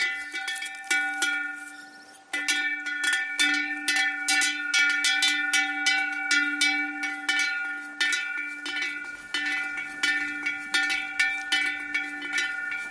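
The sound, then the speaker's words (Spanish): Cowbells on grazing livestock clank in an irregular stream of many metallic strikes. Their steady ringing tones overlap and fade between hits, fairly loud and with no voices. “Este sonido que estás escuchando puede ser un sonido en peligro de extinción. Sí, sí, en peligro de extinción. Estamos en un mundo tecnológico y quizá desaparezcan los cencerros en un futuro.”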